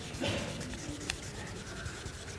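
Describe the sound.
Pen drawing on a surface: a steady, dry scratching rub that continues evenly with little change in loudness.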